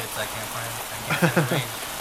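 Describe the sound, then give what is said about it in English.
Rain falls in a steady, even hiss throughout, with a brief voice-like burst partway through. “So it's raining now.”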